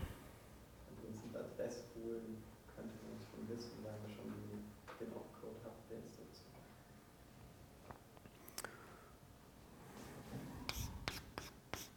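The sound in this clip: Scratchy strokes of writing on a board during a lecture on processor instructions, light and intermittent, with several brighter strokes near the end and voices talking underneath.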